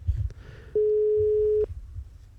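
The ringback tone of an outgoing telephone call: a single steady mid-pitched tone lasting under a second, over low background rumble.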